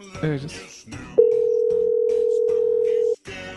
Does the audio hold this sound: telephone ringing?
yes